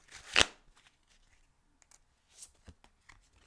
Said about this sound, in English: So, what is our medicine? What is our next step? This is the card we are pulling.